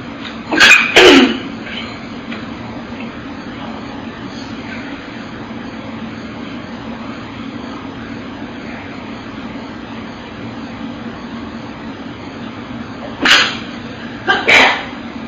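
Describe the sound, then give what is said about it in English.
Deep breaths taken during a guided mindfulness exercise: loud, airy breaths cluster near the start and again near the end, with a long quiet stretch of low hum between them. “perhaps you might want to take three big breaths to just really be here as you are.”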